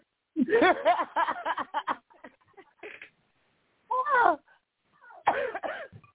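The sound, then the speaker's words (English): A woman coughing hard in a few rough, throaty bursts, pausing between fits as she struggles to catch her breath; the coughs come in clusters, loud at first, then quieter before two more strong bouts. “She coughing. She can't even catch her breath.”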